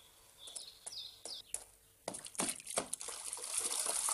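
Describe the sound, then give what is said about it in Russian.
Shower water spraying and splashing inside a wooden plank stall, a steady rushing hiss that starts about halfway through, preceded by a few short, high bird chirps. “Верзила принимает душ в дощатой кабинке. Выплевывает воду.”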